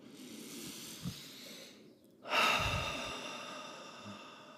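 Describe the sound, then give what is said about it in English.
A person takes slow calming breaths: a soft breathy stretch, a brief pause, then a long, audible sighing exhale that fades out gradually. The sound is faint, with no talking. “I'm going to take a little breath and calm myself down a little bit.”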